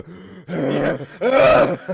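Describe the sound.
A voice imitates rough, hacking coughs: two strained, groaning bursts with a gravelly, throaty tone, followed by a short grunt at the end.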